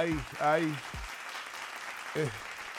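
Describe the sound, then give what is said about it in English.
A round of applause rolls on as a steady hiss of many hands clapping, running under and between a man's speech. “Cleveland, they deserve another round of applause”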